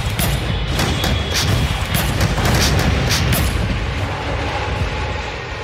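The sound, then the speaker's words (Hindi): Missiles fired and exploding during a 1971 war attack on Dhaka: a heavy, continuous rumble of booms with several sharp, crackling bursts layered over it, loud throughout and easing slightly toward the end. “अब वक्त आ चुका था target को hit करने का, मिसाइलें दागी जाने लगी।”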